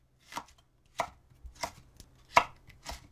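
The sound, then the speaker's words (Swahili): Knife chopping bell pepper into long strips about 5 mm wide, a series of crisp, unhurried cuts at an even pace, fairly faint and with nothing else heard. “Katakata pilipili hoho vipande virefu vya upana wa milimita 5.”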